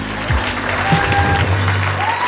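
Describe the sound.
Audience applause greets a wrestler as he is welcomed onto a Danish talk show, a dense, steady clatter of clapping that holds at an even level for the whole moment.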